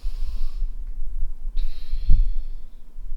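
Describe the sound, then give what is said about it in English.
A deep breath is taken during a guided eyes-closed relaxation exercise. The airy, drawn-out breathing is clearly audible and fairly loud, with no talking. “close your eyes right now. I'm doing it with you. Take a deep breath.”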